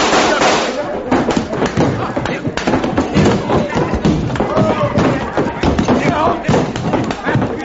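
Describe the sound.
Gunshots from a pistol grabbed off a table during a courtroom scene: many sharp, loud cracks fired in quick succession, forming a dense and continuous volley across the whole stretch.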